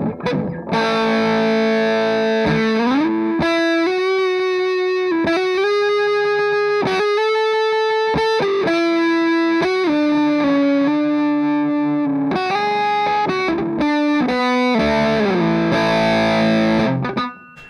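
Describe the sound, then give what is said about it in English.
Electric guitar through a focused, tight fuzz pedal plays sustained, gritty distorted notes in phrases, with brief pauses and shifting pitches. No talking over the playing. “it's a very musical fuzz. Yeah, totally. And a lot of fuzzes are just kind of like in your face. It's not, it doesn't splat anywhere. Like, it's very focused and tight.”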